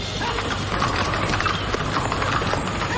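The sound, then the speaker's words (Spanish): Horse hooves clip-clop steadily as a rider mounts up and rides away alongside revolutionaries, many even hoofbeats running continuously at a moderate level throughout. “Don Roque le mira con seriedad y esperanza y regresa hacia su caballo. Monta y se marcha junto a los revolucionarios que le acompañan.”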